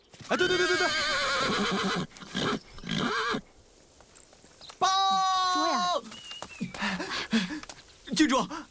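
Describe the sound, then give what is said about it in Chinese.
Horse neighing as a red mare is brought to a black stallion for breeding: two long, loud, wavering whinnies, with people talking between and after them. “我这小红呀，要是跟那黑驹配了种，肯定能生出特别好的小马驹儿。”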